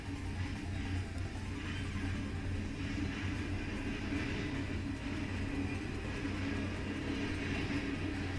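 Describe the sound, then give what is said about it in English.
A train passing near a house, heard as a continuous low rumble mixed with broad, hissing noise, holding a steady level throughout. “That's the train. Yeah. Wow. Your train is definitely way louder than mine.”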